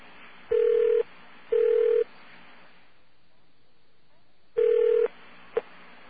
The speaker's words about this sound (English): What do you think of that little double ring there?